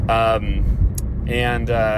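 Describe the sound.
Inside a moving car, a low, steady rumble of engine and road noise runs throughout while a voice talks over it.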